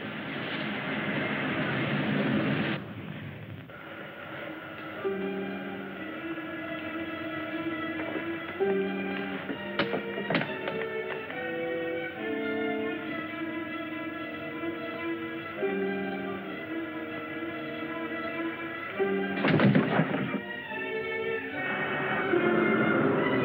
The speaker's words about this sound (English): Perfect blast off, sir.